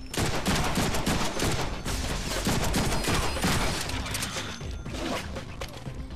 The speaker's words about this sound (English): let's use those guns.